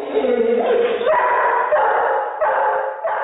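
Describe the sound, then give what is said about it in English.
Kira the dog barks while playing, letting out a quick, continuous run of short excited yips and barks that stay fairly even in loudness. “the first dog, Kira, was playing while the second, Lassie, was angrily barking at a stranger”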